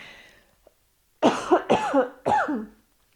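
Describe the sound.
Coughing from a pollen allergy comes in a few harsh, rasping bursts in quick succession, with a short gap between each one, after a faint stretch of near silence.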